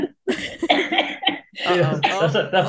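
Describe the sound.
A person coughs in a few harsh bursts mixed with laugh-like voiced sounds, fairly loud and close together across the short stretch, with voices around them.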